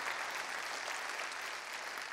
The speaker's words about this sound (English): would you give him the biggest round of applause that you've given him in a long time?